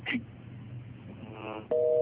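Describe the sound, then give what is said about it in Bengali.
A telephone busy tone follows a disconnected call line. After a stretch of faint line hiss, a steady two-pitched tone cuts in loudly near the end and holds to the close. “ওকে, লাইনটা disconnected হয়ে গেছে”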